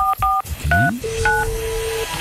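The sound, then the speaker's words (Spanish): Telephone keypad dialing: four short dual-tone beeps, with a longer steady lower tone that begins between them and runs under the last one. “le intentamos marcar a Adriana. Aquí estamos conectando”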